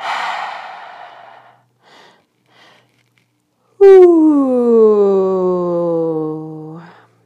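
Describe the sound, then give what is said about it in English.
Deep breaths during a breathwork session: a long breathy inhale fades away, two soft short breaths follow, then a drawn-out voiced sigh falls in pitch for about three seconds. “Deep breath into the belly, deep breath into the chest.”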